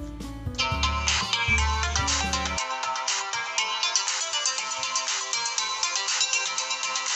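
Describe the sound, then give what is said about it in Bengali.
A musical phone ringtone plays while a call is being placed, a steady melodic tune of bright repeating notes. A low bass line accompanies it for the first part, then the higher melody carries on alone. No talking is heard. “না না phone করে দিচ্ছি”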